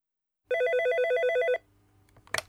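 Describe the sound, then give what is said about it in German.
A telephone bell rings in a single trilling burst of about one second, loud and alone, followed by quiet and a brief rustle or click. “Hendrik ruft Zatschko an.”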